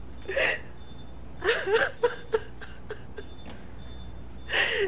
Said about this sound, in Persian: خانم محترم لطفاً اینجا گریه نکنید، مریض کمایی میشنوه.